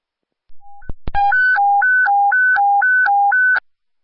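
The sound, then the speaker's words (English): A fire department radio test of an abandoned building phone: after a short beep and a sharp click, a loud electronic two-tone signal alternates high and low in even steps for about five cycles, then stops. “This is your 7:30 radio test. Here's the abandoned building phone.”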